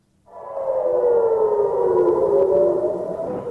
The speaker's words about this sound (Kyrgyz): Жекшембинин таңында Израилдин Ливан менен чектешкен түндүк аймактарында ушундай сиренанын жана аба соккуларынын добушу болуп турду.